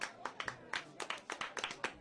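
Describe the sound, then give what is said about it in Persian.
Applause from a festival audience welcoming the festival secretary: faint, distinct hand claps in an uneven rhythm, as from a small number of people clapping. “در این لحظه دعوت میکنم از دبیر محترم جشنواره که با تشویقای قشنگتون بیان روی سینما باشون هم کلام بشه.”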